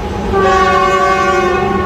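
A train horn sounded by the train driver, a loud, steady, harmonic chord held without a break for the whole clip, with no voices.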